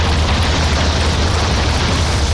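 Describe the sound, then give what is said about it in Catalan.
Explosions of rockets fired by Hawker Hunter jet fighter-bombers striking the government house, a building hit repeatedly. They form a loud, dense, continuous roar with no separate blasts standing out. “els caçabombarders Hawker Hunter inicien el seu atac a la moneda, disparant amb 4 oportunitats els seus coets sobre la casa del govern, provocant que l'edifici quedi greument afectat”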